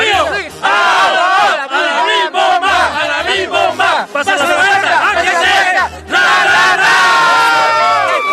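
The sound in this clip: A crowd of many voices shouts a team cheer while celebrating a first-place finish. The loud, rhythmic chanting comes in strong bursts, with brief dips near the start, the middle and toward the end.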